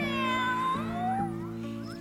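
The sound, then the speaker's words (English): A human voice imitates a cat's meow with drawn-out, high, wavering mewing sounds over a steady low backing tone. It sits at a fairly soft level and has no talk around it. “and my little cat went”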